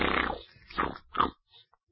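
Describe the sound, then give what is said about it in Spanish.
A voice imitates pigs grunting and snoring, like a farm full of pigs: three rough, low, guttural bursts, the first longest, followed by a couple of faint short snuffles. “Se ponen a roncar, que parecen muchas veces una granja de cerdos. De los gruñidos, ronquidos así que hacen...”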